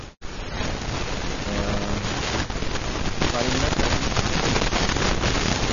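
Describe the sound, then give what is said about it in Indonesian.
Heavy rain falling steadily, a dense, loud hiss that fills the whole clip with little change after a brief dip at the start. A faint voice is briefly heard under it. “Nek hujan be iki. Alhamdulillah. Nek hujan ya rahmat, barokah.”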